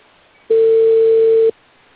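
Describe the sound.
A single telephone ringback tone on a call that goes unanswered: one steady, mid-pitched tone lasting about a second, heard alone against a faint background.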